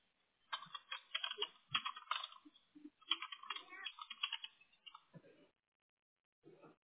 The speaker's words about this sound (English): So let me know when you're done typing and then I don't want to screw you up while you're typing.